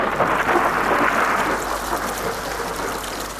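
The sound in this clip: Heavy rain pours in a steady, dense hiss with a low rumble of thunder beneath it. The storm is loudest over the first half and eases slightly toward the end.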